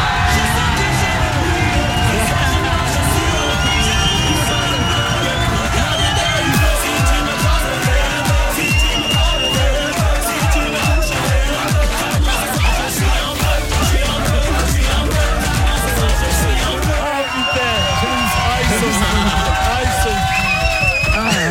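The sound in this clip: Radio show studio audience cheering, whooping and yelling loudly throughout, with a steady rhythmic pounding beat running through the middle stretch before the crowd noise swells freely again.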